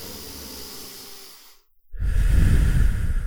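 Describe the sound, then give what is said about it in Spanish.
A deep breath taken as a calming exercise: a steady breathy inhale, a brief silent pause, then a loud, rushing exhale heavy in low rumble. “Cuando te empiezas a sentir muy enfadado, coge y respira. Respira profundo. Y haces cinco respiraciones y cuentas.”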